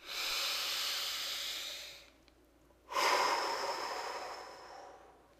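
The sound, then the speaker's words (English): A person takes a slow, deliberate breath during a calming tapping exercise: two long, airy breath sounds separated by a short quiet pause, the second one stronger and gradually fading. “Take a breath.”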